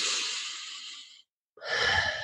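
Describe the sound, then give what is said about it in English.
A deep breath in and out: a loud, airy rush of about a second, a short silent pause, then a second airy breath, with no talk. “Take another deep breath in and out.”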